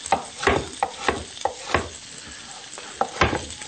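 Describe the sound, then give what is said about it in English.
Sizzling and scraping of food browning in a frying pan as it is stirred, a series of sharp, uneven stirring strokes over a soft hiss, fairly quiet and with no talking. “And while this is browning, we'll just put this in the pan here. You can see how nice it's browning.”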